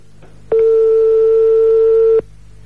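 A telephone rings out during a live call: a single loud, steady ringback tone lasting under two seconds, starting and stopping sharply over a low background hum.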